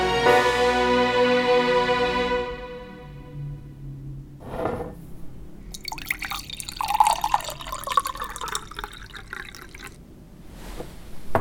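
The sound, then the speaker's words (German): Water is poured into a drinking glass, a faint trickling and splashing that runs for several seconds in the second half, with a few soft drips and no voices. “Auch ein Glas Wasser für Sie, Frau Kurz?”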